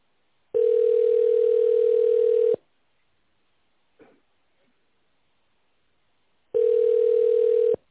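Telephone ringback tone as a call is transferred to an operator: two long, steady single-pitched tones of about two seconds each, separated by a long silence with a faint click.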